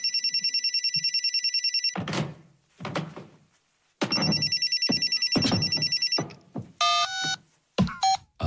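A telephone ringing for an incoming call: rapid trilling electronic rings in two long stretches, broken by thuds and clatter, followed by short bursts of higher electronic beeps.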